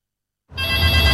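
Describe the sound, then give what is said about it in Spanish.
Intercom ringing in a home: a loud, continuous buzzing ring that starts abruptly after silence and holds steady to the end, with no voices. “¡Nico! ¡Contesta tú el citófono, po, que estoy ocupada!”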